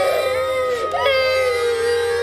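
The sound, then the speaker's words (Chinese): Children crying at a family mealtime during the New Year holiday, a loud, sustained, high-pitched wail that holds steady with a brief wavering dip midway. “孩子们，别哭了啊，快点吃饭吧！”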